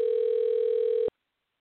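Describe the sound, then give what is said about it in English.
Ringing tone of an outgoing telephone call: a single steady, buzzy mid-pitched burst lasting about a second, cutting off abruptly into silence. “Ah, ringing.”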